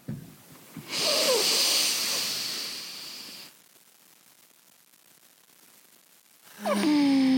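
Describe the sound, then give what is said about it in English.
A deep inhale, a long breath drawn in steadily for a few seconds with a soft airy hiss, then quiet, and a brief voiced sound at the very end. “Can we do a deep inhale to start?”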